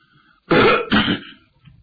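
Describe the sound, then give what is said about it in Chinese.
Someone clears their throat in two rough, raspy bursts, the second slightly shorter, followed by a brief faint trailing sound against near silence. “张作霖一看人都来得差不多了，清了清嗓子”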